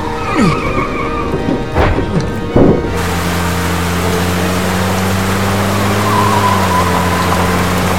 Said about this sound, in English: Following the sound of the van!